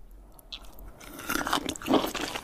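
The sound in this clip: Crisp crunching as someone bites into and chews cold-dressed chicken, a series of irregular crunchy bites that grow louder toward the end, heard alone without talk.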